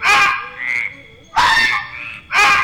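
A toad croaks three times, each call a loud, raspy, buzzing croak separated by short pauses, with a fainter, higher call between the first two.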